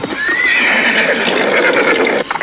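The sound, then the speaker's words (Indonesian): A horse neighs loudly, one long whinny that rises and then falls in quavering waves over about two seconds before breaking off, with no talking. “itu dia di sana kulihat kudanya. Tapi di mana orangnya? Kenapa kuda itu?”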